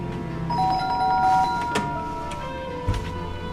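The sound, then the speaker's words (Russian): A doorbell rings at a home with a couple of clear, sustained chime tones over a steady, noisy background, followed by a few softer thumps. “Звонок Федору домой.”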